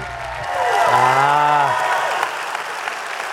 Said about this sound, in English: In fact, put your hands together and welcome Ted Cunningham to the stage.